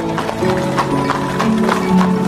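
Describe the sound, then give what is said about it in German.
Horse hooves clip-clop in a steady, rhythmic beat as a horse-drawn carriage pulls up on a street in old Paris. The hoofbeats are fairly loud and continue throughout. “als eine Kutsche neben ihm hält”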